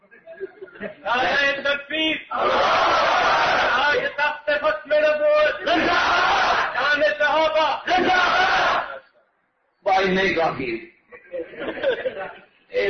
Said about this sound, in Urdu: اس طرح نعرہ لگانا ہے نا, میں پہلے ہی ماروں